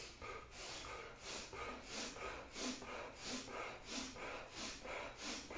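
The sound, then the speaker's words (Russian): Rapid, rhythmic breathing in a kriya yoga breathing exercise: many short, forceful inhales and exhales follow each other at a steady quick pace, each breath a loud, airy, nasal-sounding puff with no talk. “И теперь вдох и такой выдох.”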